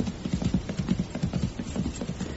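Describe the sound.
Horses' hooves while riding: a steady, loud clip-clop of many quick hoof beats running through the whole clip, with no talk.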